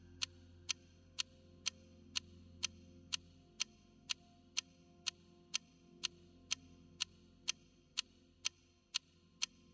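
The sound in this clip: A clock ticking steadily at about two crisp, sharp ticks per second, quiet against a faint low background hum.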